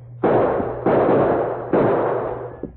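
Three gunshots ring out in an old Western radio drama shootout. Each is a sharp, loud crack followed by a long, decaying roar, and they come under a second apart with no voices.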